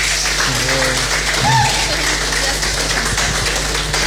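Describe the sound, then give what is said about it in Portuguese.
An audience applauds a young singer at a live concert evening. The clapping is dense, steady and fairly loud for the whole stretch, with a faint tonal voice-like sound briefly showing through. “Eu peço mais aplausos para ti.”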